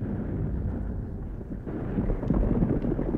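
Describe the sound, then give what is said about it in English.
Explosives blast through rock in a mine, heard as a muffled, continuous low rumble. It swells slightly louder and grittier in the second half. “That's it. They blasted through.”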